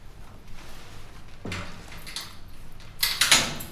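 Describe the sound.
Metallic clicks and rattles as a security gate at a front door is unlocked, with a few sharp mechanical bursts spread out over low background noise and a louder, denser clatter near the end. No voices are heard.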